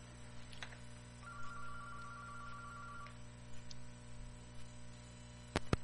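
An incoming call rings on a telephone as one warbling tone lasting about two seconds. It sits over a steady low hum, with a couple of sharp clicks near the end.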